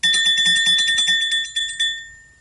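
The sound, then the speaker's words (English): A doorbell ringing: bright metallic chimes struck in a quick run of repeated rings, loud and clear with no voices, then thinning to a few last tones that fade out. “Then, all of a sudden, the doorbell rang.”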